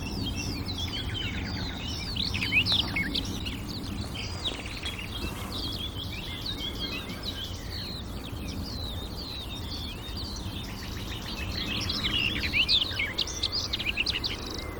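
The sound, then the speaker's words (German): A warbler sings a bubbling, hurried, melodious song, accompanied by a nightingale. The high, quick chirping phrases come faintly in clusters early and again near the end, over a soft, steady low rumble. “Wieder dieser plätschernde, sich manchmal überschlagene, hektisch vorgetragene, wohlklingende Gesang. Dieser Grasmücke begleitet von der Nachtigall.”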